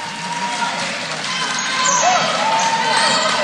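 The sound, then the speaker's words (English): A basketball is dribbled on a court during a high school girls' game involving Arcanum, the bounces heard under continuous commentary from an announcer. “She will have one more. Bouncing the basketball, lets it fly, and it is good.”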